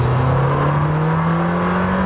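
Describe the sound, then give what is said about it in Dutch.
An Italian sports car's V8 engine drones loudly and steadily, its low pitch climbing gently as it revs. There is no talk over the engine. “Helaas de V10, hè, die we kennen uit de Gallardo en de Huracan en een paar Audi's. Die is er niet meer, maar ze hebben het goed gemaakt, deze V8. Het is echt heel iets anders”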